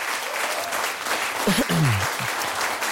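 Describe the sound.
Applause from an audience, steady clapping from many hands throughout, with a voice speaking briefly over it near the middle.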